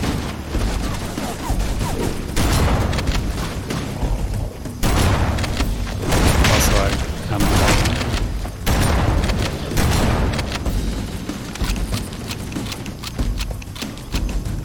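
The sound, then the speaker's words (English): Shotgun blasts fire at demons in a Doom-like first-person shooter game: loud, heavy booming bursts come in quick succession, many shots across the whole stretch with no talk. “this is the part of the game that I think is the most like Doom, when you're shooting demons with a shotgun.”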